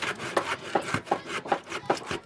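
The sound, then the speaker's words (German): Rhythmic hand sawing of wooden boards on a hut roof: many quick back-and-forth rasping strokes at an even pace, each stroke a rough, scratchy swell of moderate loudness. “Ich säge die Bretter ab, damit es da gerade ist.”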